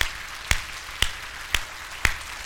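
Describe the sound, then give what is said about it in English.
Church audience clapping for military service members, a steady series of sharp, loud claps about every half second in an even rhythm over a quieter background. “currently serving or have served in the United States Armed Forces, will you please stand to your feet in church? Let's give them an applaud.”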